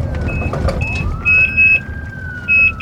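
An ambulance drives to a hospital, its siren tone rising and then levelling off over a low vehicle rumble, with several short high-pitched beeps sounding in bursts.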